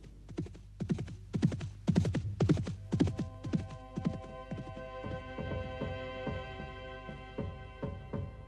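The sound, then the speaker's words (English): A horse gallops in a fast, rhythmic run of many thudding hoofbeats that stay steady throughout, with a low sustained hum rising beneath them after the first few seconds. “Thomas was gone, galloping towards his destiny on the other side of the Channel.”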